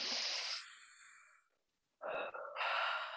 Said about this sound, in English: Okay, everybody, we're taking a deep breath. Ready? One, two, three.